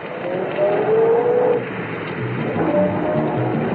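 A car pulls away and drives off, its engine surging in two swells of revving with a thin tonal whine riding on top, and no talk.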